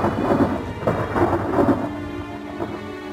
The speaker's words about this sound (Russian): в окно угрожающе стучал дождь, и дом весь вздрагивал от ударов грома.